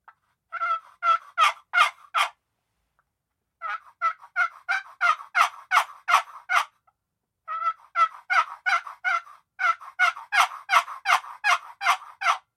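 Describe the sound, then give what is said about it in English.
Raspy turkey yelps made on a walnut turkey call, crisp but mellow, with the rasp in the lower notes. The yelps come in four rapid series, each several evenly spaced notes long, with short pauses between them. “And then the walnut seems to be a little mellower. It's sharp and crisp, but the rasp is in the lower, deeper notes.”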